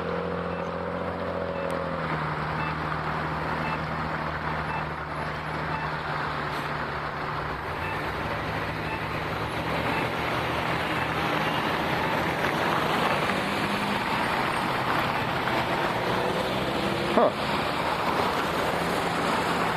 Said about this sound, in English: See, that feels like these cars are going my way.